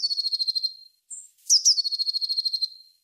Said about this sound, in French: Alors peut-être que vous avez déjà entendu ce chant, c'est celui de la Mésange Bleue